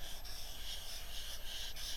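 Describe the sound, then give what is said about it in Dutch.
Drawing a little cloud on paper: faint, continuous scratchy rubbing of drawing strokes, broken by a few brief pauses. “En je mag daarbij vertellen wat je precies aan het tekenen bent. Dus, ik teken een wolkje.”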